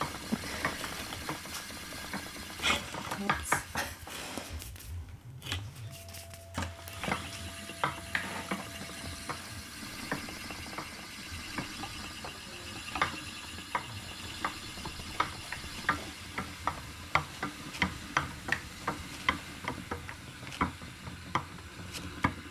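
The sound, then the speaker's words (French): Spinning wheel turning its bobbin as fibres twist together into thread, giving a steady run of fine mechanical clicks and ticks with a soft whirring underneath, continuing evenly throughout with no talking. “Je fais tourner la bobine. Et donc les fibres s'enroulent, se torsadent les unes sur les autres. Et je fais du fil, c'est tout bête.”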